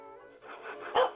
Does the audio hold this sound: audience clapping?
no

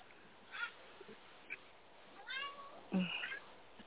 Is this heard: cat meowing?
yes

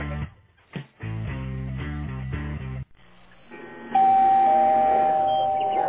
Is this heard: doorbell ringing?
yes

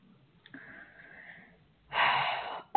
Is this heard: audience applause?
no

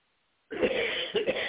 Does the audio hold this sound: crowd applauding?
no

